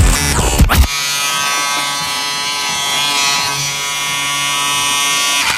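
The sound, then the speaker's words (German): An electric shaver buzzes in a steady, loud, harmonic-rich whine. It starts abruptly after a brief burst of other sound and runs unbroken to the end. “Jetzt wird rasiert.”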